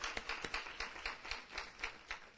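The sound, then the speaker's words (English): A church audience claps in praise after a sermon, with many quick, rhythmic hand claps in an even, steady beat at moderate loudness. “Come on, let's give him a tremendous hand clap of praise for the word”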